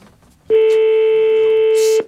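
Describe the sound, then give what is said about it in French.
A telephone call rings out to the Les Lilas town hall: a single loud, steady, buzzy ringback tone that lasts about one and a half seconds and then stops. “On appelle la mairie des Lilas, là.”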